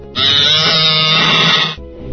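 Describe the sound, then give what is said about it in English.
A Star Wars tauntaun creature gives one long, loud bleating growl, rough and grunting in texture, that holds steady before cutting off and leaving a quieter tail. “Oh no, that sounds like Tauntauns.”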